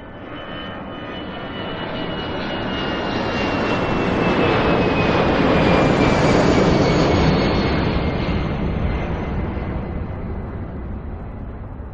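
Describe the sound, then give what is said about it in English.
Airplane engines roar at an airport, a broad sustained rumble that swells to a peak midway and then eases slightly. A thin high whine glides gently downward through the noise. “If you wanna travel in the airport.”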